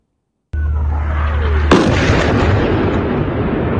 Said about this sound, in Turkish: İsrail Lübnan'ı böyle vurdu.